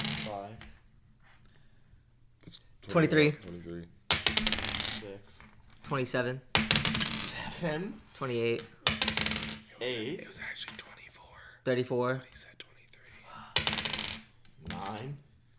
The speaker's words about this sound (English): can you keep track of the amount of dice I've rolled?